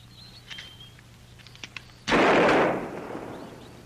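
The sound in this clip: A single gunshot during a shooting contest, a sudden loud blast that cuts through a quiet lead-in and fades away over about a second.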